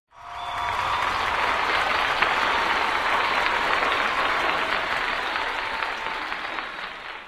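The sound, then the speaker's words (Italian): Enthusiastic applause from an audience bursts in abruptly and stays thick and steady for about seven seconds before easing slightly toward the end. “gli applausi furono entusiastici.”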